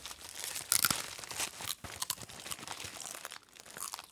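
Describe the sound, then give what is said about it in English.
Faint crinkling of a cheese curl bag being opened and eaten, with many irregular plastic rustles and small crackles that come in short clusters. “Let's eat some cheese curls for inspiration and brainstorm.”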